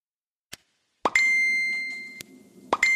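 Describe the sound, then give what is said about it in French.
A ringing notification sound effect used to grab attention: a soft pop, then a bright, sustained chime that slowly fades, followed by another pop and a fresh chime at the end. “Non, ne t'inquiète pas, c'est pas chez toi que ça sonne, c'est ici. En fait, c'est juste pour attirer un petit peu ton attention”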